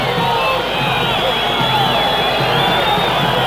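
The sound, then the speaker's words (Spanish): A football crowd at a Gimnasia Jujuy versus Chacarita match whistles at a Chacarita player sent off for an elbow, with loud, sustained crowd noise and many shrill whistles rising and falling in pitch. “Se va expulsado por una falta, por un codazo, el hombre de Chacarita. Y se va con la silbatina.”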